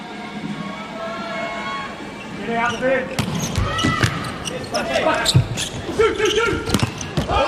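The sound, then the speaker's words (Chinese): A ball bounces during a serve in a match, several sharp thumps coming in a loose run after a voice speaks at the start. Talk continues over the bounces. “看看许朱凤的发球”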